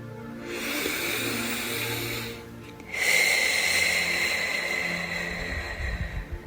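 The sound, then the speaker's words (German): Deep breathing in and out: a long, hissing inhale, a short pause, then a longer, airy exhale, soft and steady with no talking. “Atme ganz tief ein und aus.”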